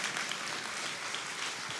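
Applause from an audience as a family is welcomed onto a church stage: a steady, dense wash of clapping that stays even and loud throughout without any break.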